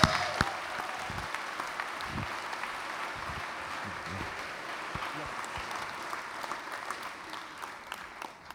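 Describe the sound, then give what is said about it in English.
Audience applause welcoming a speaker at Hope College, a dense, steady clapping that holds at an even level throughout with no break. “Would you please give him a warm Hope College welcome?”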